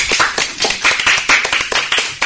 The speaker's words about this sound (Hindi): जोरदार तालियां हो जाए